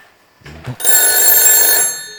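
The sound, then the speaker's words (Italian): A telephone rings on an outgoing call to a friend: one loud, bright, buzzing burst of ringing lasting about a second, preceded by a couple of short, low thuds. “proviamo a far suonare il telefono al nostro amico, non so se a quest'ora è sveglio, proviamo, vediamo un po',”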